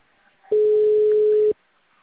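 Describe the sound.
A telephone ringing tone plays while a caller waits for an answer: a single steady, level tone about one second long, starting and stopping abruptly against a quiet line.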